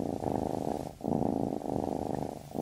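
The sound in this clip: A domestic cat purrs with a steady, low, rumbling pulse. The purr rises and falls over a few breath cycles, with brief dips between them, and no other sound is present.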